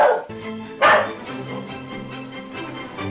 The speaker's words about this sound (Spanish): ¡Rompe la cadena de Chindasmito! ¡Tiene la rabia!